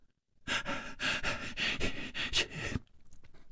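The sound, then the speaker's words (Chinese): Heavy, hoarse panting from a man gasping for breath: a run of rough, loud breaths in quick succession, then a drop to faint, quieter breaths at the end. “他喘息着哑声说”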